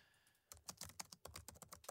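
Typing an email address on a computer keyboard: after a brief quiet start, many quick, irregular keystrokes tap out in faint, crisp clicks with short pauses between bursts.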